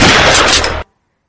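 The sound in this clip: A single loud blast of a .45 calibre pistol shot, one dense, harsh burst of noise that ends abruptly into silence.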